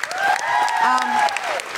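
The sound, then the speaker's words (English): An audience at Kings Place applauding in a big round of clapping, with a steady rush of many hands. A raised voice rings out over the clapping for much of it. “Chris, big round of applause for Chris.”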